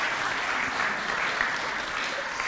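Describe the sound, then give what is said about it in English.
Audience applause for guests at a live show: dense, steady clapping that fills the whole stretch at an even, moderately loud level with no pauses. “Let's give these guys a round of applause.”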